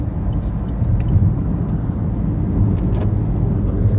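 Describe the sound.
A car drives along a road with a tailgating vehicle close behind, giving a steady, even low rumble of engine and tire noise with no distinct events throughout.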